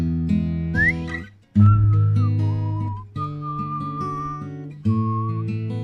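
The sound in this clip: Melodic whistling of a tune over steady musical accompaniment, with clear sustained and sliding notes in a few phrases separated by short breaks.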